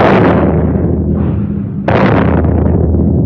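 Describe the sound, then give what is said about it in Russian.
Artillery shelling of a battery by Japanese guns at Port Arthur: two heavy, rumbling blasts, the second arriving partway through, each swelling into a long, loud roar. “Японцы начали обстрел батареи.”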